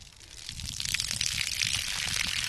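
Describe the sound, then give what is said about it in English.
Water gushes from a hose on a test well valve drawing from an aquifer zone about 300 feet deep, pouring onto the ground. The rush builds over the first second, then holds as a steady, loud hiss. “Water pours out on the ground.”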